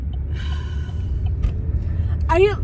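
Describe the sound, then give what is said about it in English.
A car drives along with a steady, low interior road rumble running throughout, while a few brief vocal sounds and a gasp rise over the hum. “Okay, so this is our live reaction because we're driving down to Universal right now.”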